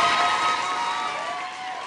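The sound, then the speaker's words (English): A rowdy studio audience cheers and whoops in one continuous roar of voices that eases slightly toward the end. “We got a ruckus crowd today.”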